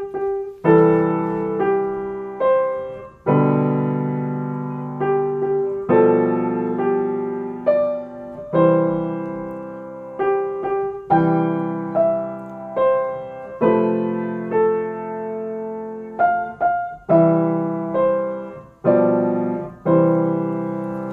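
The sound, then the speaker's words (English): Piano plays song arrangement-style chords in the left hand, including a root-position C chord, under a right-hand melody. Many struck notes ring and decay in a steady, even rhythm of repeated chord attacks, with no voices. “I'm going to play the chords in my left hand and play the melody in the right hand. So that's going to sound like this.”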